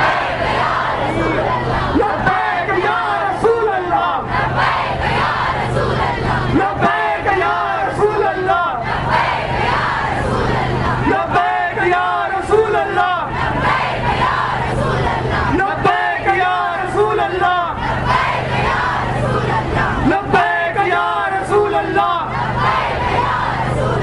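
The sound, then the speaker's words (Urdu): A large crowd chants "Labbaik ya Rasool Allah" together in unison, a loud, dense and sustained roar of many voices with a rhythmic pulse throughout. “سب مل کر ایک minute تک کہیں گے لبیک یا رسول اللہ.”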